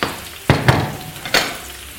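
Vegetables sizzle as they go into a pan where rabbit is cooking over low heat. Three sharp hissing bursts rise out of a quiet background, and each one fades into a softer sizzle.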